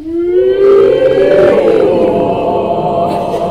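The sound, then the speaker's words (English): A human voice performs a siren vocal warm-up, holding one loud, continuous sung tone that swells briefly and then glides slowly downward in pitch. “It's called a siren. It starts off wee high at the top and all low at the bottom. So you start off with a big breath and it's”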